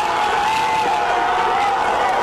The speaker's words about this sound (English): The first big cheers of the World Cup echoing across Southern California Thursday.